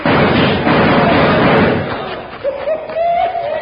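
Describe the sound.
Gunfire in a shootout, a dense, loud stretch of shots and blast noise, followed by a thin, sustained whining tone like a ricochet.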